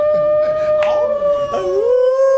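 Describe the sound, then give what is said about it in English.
A wolf howl sound effect: one long, steady, sustained tonal call with bright harmonics that dips slightly in pitch near the end before holding again, loud and alone with no talking. “That gets a wolf.”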